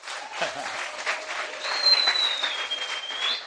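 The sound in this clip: A church audience applauds during a Sunday service: dense, steady clapping with no clear gaps that holds throughout and swells slightly toward the end.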